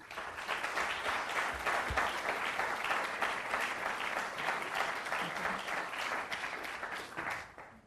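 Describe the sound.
An audience applauds to welcome two professors giving an evening lecture on service automation and robots. Even, sustained clapping holds for about seven seconds, then tapers off at the end.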